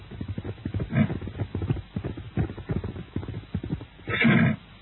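A horse, with rapid rhythmic thumps running throughout, a short whinny early on and a louder, longer neigh near the end.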